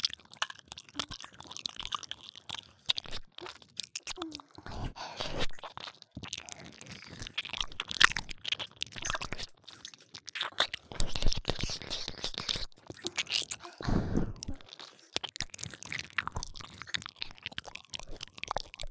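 Crunchy food being chewed, many quick, crisp crunches in an uneven, continuous rhythm at moderate loudness, with soft wet squishes between bites.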